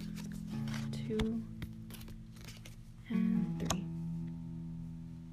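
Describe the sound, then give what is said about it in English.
Playing cards are laid out in a row for a card-reading spread, giving a couple of crisp snaps and lighter taps against a steady low hum. “Now I'm going to do the bottom row. Three cards again. One, two, and”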